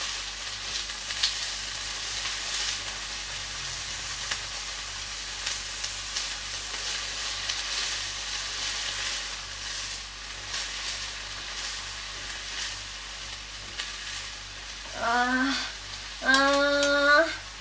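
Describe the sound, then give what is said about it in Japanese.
Pre-cut vegetables stir-frying in a pan make a steady, bright sizzle that holds for a long stretch. A person's voice briefly breaks in twice near the end. “野菜炒めってさ、ほんと単純に美味しいよね。もうカット野菜でやってるんで超一瞬です。”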